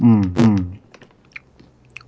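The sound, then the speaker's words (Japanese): Chewing of plain salted butter popcorn from a convenience store: a voice briefly at the start, then a series of soft, crisp crunches scattered through the rest. “何食ってるんですか。 セブンイレブンのポップコーン。”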